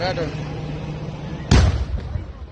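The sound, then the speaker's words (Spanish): A bomb explosion at the Cúcuta airport: a sudden, heavy, deep boom bursts out partway through over a steady, rumbling background noise, then slowly settles back. “otra bomba, amor, otra bomba, otra bomba. Ahí mismo, mire.”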